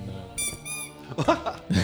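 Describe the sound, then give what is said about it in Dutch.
Squeaks from a squeezed toy crocodile: a couple of high, shrill, whistly squeaks, followed by a few shorter, duller bursts of sound. “Dat is een piepende krokodil. Een soort kuiken.”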